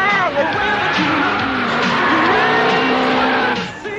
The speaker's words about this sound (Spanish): ¿No veis que vais en dirección contraria? ¡Para de una vez! ¡Hombre, frena!